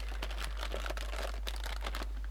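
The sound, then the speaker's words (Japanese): Crinkling paper as a gift in a paper bag is opened, heard as many short, dry crackles and rustles with no talking. “紙袋に入ってますよ。はい。はい。オープン。”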